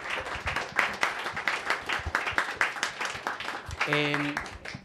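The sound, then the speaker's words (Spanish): An audience at a panel event on technology applauds with dense, continuous clapping that holds steady for several seconds. A voice cuts in briefly near the end. “Aplausos, por favor”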